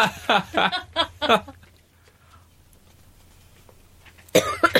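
Harsh coughing as if choking on a fishbone: a quick run of rough, throaty coughs, then a stretch of near silence, and one more loud cough bursts out at the very end.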